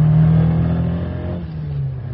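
A fast car accelerating on a motorway in bad weather: its engine gives a loud, steady, mid-pitched drone that holds throughout, with no voices.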